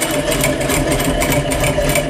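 A sewing machine stitches fabric held under its presser foot, giving a loud, steady motor whir that runs unbroken throughout.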